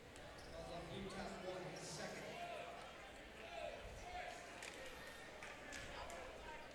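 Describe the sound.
A basketball thumps on the court as a player takes a few dribbles before a free throw at a high school boys basketball game, the bounces sounding under ongoing commentary.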